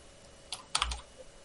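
Fingers tapping on a computer keyboard, a short cluster of a few light clicks, faint over a steady low hum, with no voices.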